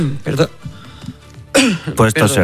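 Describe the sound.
A speaker coughs and clears her throat during talk about inflation. A few rough, noisy bursts are mixed in with speech.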